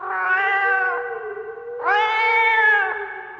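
A cat meows twice, each meow long and drawn out, with a short gap between them.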